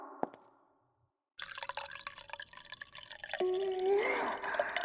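Water poured to make tea: a single drip, then a short silence, then a steady splashing pour that grows louder, with a rising tone near the end as the vessel fills.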